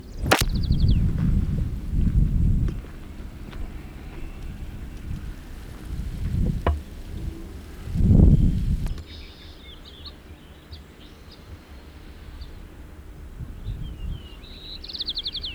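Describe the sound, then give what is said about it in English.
A white-crowned sparrow sings along Grizzly Peak Trail in Tilden Park, California: three short, high, buzzy songs, faint against gusty wind rumble and scattered low thumps. “White Crown Sparrow B.”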